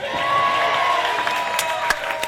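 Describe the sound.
Studio audience cheering on a quiz game show, a sustained blend of raised voices with a few sharp claps toward the end.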